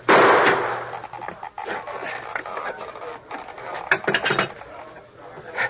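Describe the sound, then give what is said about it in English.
A gunshot blasts the lock off a box with one loud burst at the start. Scattered mechanical clatter and rattling follow at a lower level. “I'm going to blast the lock off this box.”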